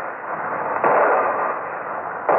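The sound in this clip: Gunfire and exploding shells from warships, heard as a dense, muffled rumbling roar with two sudden, louder bursts, one near the start and one near the end.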